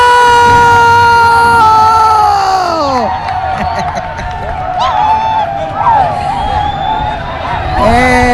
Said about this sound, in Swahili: hizo shango nazozisikia ni wachezaji wa akiba wa Namungo ndio wanashangilia goli.